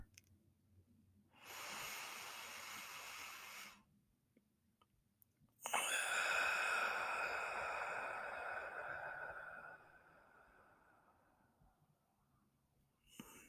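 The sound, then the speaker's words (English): A slow, deep breath taken during a calming exercise: two long, soft airy rushes with no talk, the second starting sharply and lasting longer before it fades out. “let's just all start with a deep breath.”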